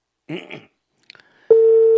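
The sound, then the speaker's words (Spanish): A telephone ringback tone while calling someone: a short voice and a few faint clicks come first, then a loud, steady electronic tone starts and holds unbroken to the end. “Vamos, Marcelo, coge el teléfono, mi amigo, porque tiene miedo.”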